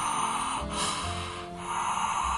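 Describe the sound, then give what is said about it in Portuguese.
Breathing in steam from a kettle of heated water through the mouth: a steady, loud rushing airflow that dips briefly twice, with no talk. “coloca a boca próxima do recipiente e vai aspirar o vapor pela boca.”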